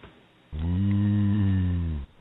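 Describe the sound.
A single long, low moo-like mating call of a cow, a steady droning tone that holds for about a second and a half and then stops abruptly.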